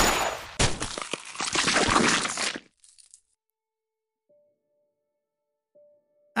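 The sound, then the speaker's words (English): An explosion bursts out as a loud, harsh blast of cracking and crunching noise lasting about two seconds, then cuts off abruptly into near silence. “I can't believe it just exploded right. Like that.”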